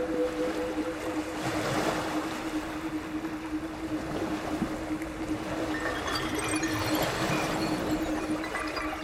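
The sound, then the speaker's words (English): Ocean waves roar in a continuous, overwhelming wash with gentle surges and some wind buffeting on the microphone, with no voices. “the ocean like cancels everything out. Close your eyes. Like overwhelming sound that you just hear that”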